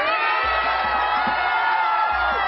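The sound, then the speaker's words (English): Crowd cheering in the streets at a rally, a dense, steady roar of many voices with scattered whoops rising above it, loud throughout. “Giant crowd in the streets, many not wearing masks.”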